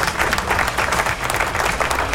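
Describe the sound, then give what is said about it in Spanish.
Applause from many hands, a dense, continuous crackle of clapping that stays loud and steady throughout, with no speech over it. “Así que aplauso para ellos.”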